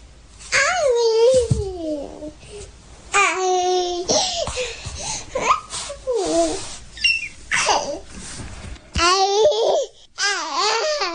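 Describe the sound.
A baby about a year old babbles and laughs in lively, high-pitched bursts of chatter and giggles separated by short pauses, loud and alone.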